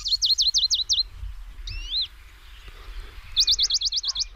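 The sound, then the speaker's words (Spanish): Western Bonelli's warbler singing in a lush green area of the Sierra de Segura: two bursts of rapid, high, dry trilled notes, a short one and then a longer one, separated by a brief softer call over a faint low background rumble. “mientras escuchamos un mosquitero, el Papi Albo”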